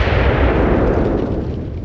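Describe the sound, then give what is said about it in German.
Deafening roar of a rocket explosion striking a power generator building in a camp. A loud, dense rumble holds throughout and fades slightly toward the end. “Und im selben Moment, in dem ich begriff, dass es eine Rakete war, zerriss ein gigantischer, ohrenbetäubender Knall die Stille des Lagers.”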